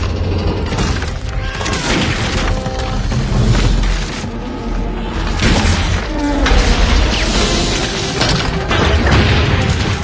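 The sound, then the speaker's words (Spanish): A large ship's deck bursts and its hull cracks apart at the centre: a continuous loud crashing, grinding roar with heavy booming impacts for the whole stretch. “En ese momento, el entarimado de cubierta salta y el casco se agrieta al centro, justo bajo los pies de Lovejoy.”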